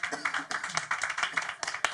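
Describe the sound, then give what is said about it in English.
Hands clap repeatedly during a church worship service, with many sharp claps in a loose rhythm mixed with voices. “Let's clap our hands to the Lord.”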